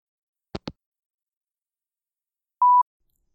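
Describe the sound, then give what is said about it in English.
A faint telephone sound after hanging up before calling back: two quick soft clicks, a pause, then one short steady beep, alone in near silence. “I'm gonna hang up and call back again so this doesn't cut out, okay?”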